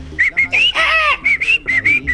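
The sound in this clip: A southern screamer (chajá) call: a series of many short, high, whistle-like notes in an uneven rhythm, with a longer, fuller burst partway through.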